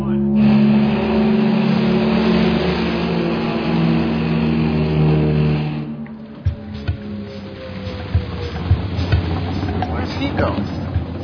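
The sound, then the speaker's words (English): The engine of the Challenger 1 car revs with a loud, steady, droning roar for about six seconds. The drone then drops away, leaving a few sharp knocks and clatters. “The famous Mickey Thompson car, Challenger 1.”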